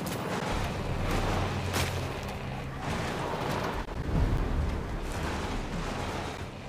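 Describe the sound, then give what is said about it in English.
Gunfire in the video game Tom Clancy's Ghost Recon Breakpoint during an enemy firefight, a dense, continuous rumble of shots and booms with repeated louder bursts throughout. “Enemies. We got enemies on us. Go, go, go. I'm getting shot at.”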